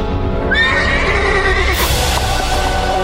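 A saddled horse whinnies in one loud, drawn-out neigh with a shrill, quavering tone that holds for about three seconds.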